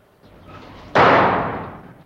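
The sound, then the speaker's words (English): A door slams shut as a prisoner is shoved into a room. A quiet low rumble comes first, then one loud, sharp bang that decays over about a second. “they bundle him into a room and slam the door.”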